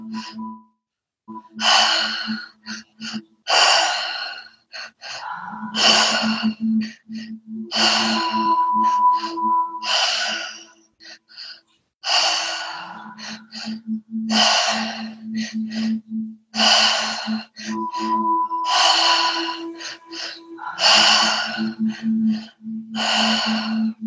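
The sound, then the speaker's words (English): Deep, forceful mouth breaths during a guided breathing exercise, many strong inhales repeated in a steady cycle with short pauses between them, over a low, steady drone. “Keep on going. Big inhale through the mouth, into the belly, into the chest.”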